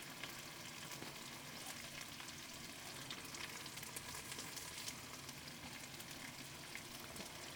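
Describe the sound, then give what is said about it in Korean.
Garlic sizzles and spatters heavily as it fries in oil, a steady, loud crackling hiss that holds evenly throughout with no talk. “여기다 마늘 넣어줄게요. 어, 되게 많이 튀네. 마늘 넣어주면 천천히 마늘 기름 내고”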